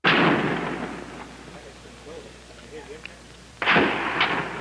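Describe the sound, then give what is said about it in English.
Gunfire from the 1966 University of Texas tower shooting in Austin, recorded on film: two loud, sharp reports, one at the start and one near the end, with fainter crackling in between. “This is the sound of the first mass murder captured on film in American history. It was recorded in Austin, Texas in 1966 after a lone shooter named Charles Whitman stormed the balcony of the clock tower in the middle of the University of Texas campus and started firing at random.”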